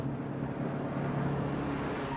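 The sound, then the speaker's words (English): A bus drives along a winding road with a steady, low engine drone and road noise that hold an even level throughout, with no voices. “The bus drives along a winding road.”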